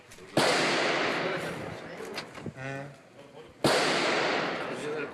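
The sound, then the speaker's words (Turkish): Two sharp gunshots ring out during a deadly landlord–tenant quarrel at an address in Istanbul's Maltepe district. The loud cracks come about three seconds apart, each with a long ringing tail, and a brief voice is heard between them. “Silah seslerinin yankılandığı adres İstanbul Maltepe.”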